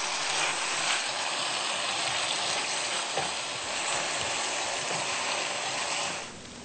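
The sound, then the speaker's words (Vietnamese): Steady loud sizzle as annatto oil is poured into tomatoes frying in a pan, a continuous broad hiss that eases off near the end. “chúng ta sẽ đổ cái dầu điều này vào để cho nó có màu.”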